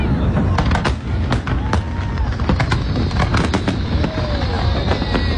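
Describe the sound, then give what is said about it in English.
A huge Fourth of July fireworks show over Washington, D.C., with shells launched from many locations: dense, continuous crackling and booming bursts pile on top of one another, with a few thin whistling tones threading through the barrage. “the crowds were treated to what was billed as the biggest fireworks show ever, with some 850,000 shells being blasted from 10 locations all around Washington, D.C.”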